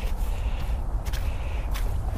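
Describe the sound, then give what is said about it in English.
Footsteps crunch and squelch over sandy mud on heathland at Chobham Common in Surrey, making a continuous, fairly loud trudging texture with a few sharper scuffs. “So, and now walking on another muddy, well, it's sort of sandy mud. It's more forgivable in some ways.”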